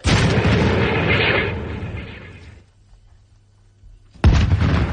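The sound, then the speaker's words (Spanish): An artillery gun fires during a crew's firing drill: a loud, deep blast rolls off into a long, fading rumble, then a second heavy boom cuts in near the end. “Listos para disparar. Variación de proyección a 24 metros. 24 metros, listo. Inclinación 26 grados, carguen. 26 grados, listo, señor. ¡Fuego!”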